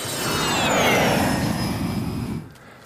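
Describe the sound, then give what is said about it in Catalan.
An airplane flies past with a broad roar and a high whine that slowly drops in pitch, used as a transition effect. The roar swells, holds, then fades quickly near the end. “I ara sí, feta la llegenda, Jaume, agafant l'avió des de la Vall d'Aran i tornem a l'estudi d'Ivetra Ràdio.”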